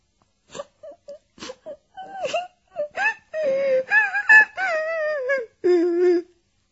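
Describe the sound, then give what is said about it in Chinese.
A girl cries while leaning against a wooden crate as a horse is lifted onto a ship. Faint, short sobs come first, then build into long, loud, wavering wails. “她靠在马头上的一只木箱上哭了起来。 开头还听不到声音，后来声音越来越大。”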